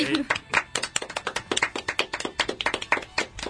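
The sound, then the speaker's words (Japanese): Brief hand clapping from a few people at the close of a talk about films: quick, uneven claps with voices talking over them. “お、はい、終わりです。 お拍手”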